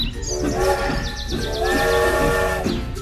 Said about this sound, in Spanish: un tren muy famoso llamado Nutritren, que llevaba a los habitantes de estación en estación y anunciaba su llegada.